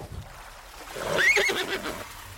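A horse stuck in a lake gives a single whinny that rises and then falls, with faint splashing and low noise around it.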